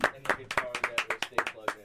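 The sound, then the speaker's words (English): People clap in a studio during a live show. A quick, crisp run of many separate claps lasts about two seconds at moderate volume. “Everybody clap for Goop. Thank you, Goop.”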